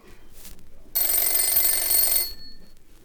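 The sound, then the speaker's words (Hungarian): A telephone rings once in a single bright, sustained electric-bell burst lasting over a second, against a faint background. “Egy telefonbeszélgetés lesz Bécs és Budapest között. Ez a telefon, ez egy budapesti vállalati irodában van, az a telefon pedig egy bécsi szálloda portáján.”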